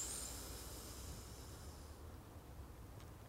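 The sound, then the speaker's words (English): Air is breathed out through the left nostril during alternate nostril breathing as one slow, steady exhale, a soft airy hiss that fades gradually over about three seconds. “Close left, breathe out right. Breathe in right. Close right, breathe out left.”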